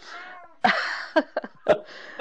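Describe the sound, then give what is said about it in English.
A cat meows several times: a soft, drawn-out call, then a loud, long meow followed by a few short, choppy cries and two more sharp meows. “That was a cat.”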